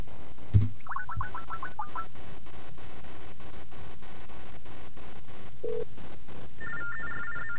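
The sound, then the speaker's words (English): Trilling telephone ring on a call placed to a payphone: a short warbling burst near the start, a brief low tone, then another ring toward the end, all over steady line hiss. “that was the number you heard, or the call you heard right at the beginning of the show. Let's try the payphone again.”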